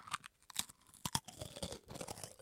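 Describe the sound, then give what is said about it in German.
Crackers being eaten, with a few sharp, crisp crunches as they are bitten, followed by softer, irregular chewing. “ich esse jetzt hier einfach mal Cracker”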